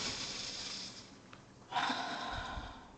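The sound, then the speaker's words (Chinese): Deep, slow breathing from a person doing a breathing exercise: a long airy breath, a brief pause, then a fuller and louder breath that carries on to the end, with no talk. “就呼吸就好了，然后再大口呼吸”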